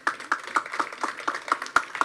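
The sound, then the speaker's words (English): An audience claps in steady rhythm for a former Turks and Caicos Islands premier at a formal gathering: about nine evenly spaced, sharp claps sounding together, fairly quiet, with brief gaps between each beat. “Would you give him a hand of applause?”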